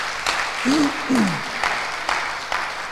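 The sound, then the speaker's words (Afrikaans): An audience claps in a dense, even patter of hand claps, and a voice briefly rises and falls over the applause. “kan ons gauw vir hulle, een klap geef”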